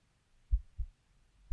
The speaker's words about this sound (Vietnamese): Tim tôi lúc này cũng đập thình thịch. Thình thịch.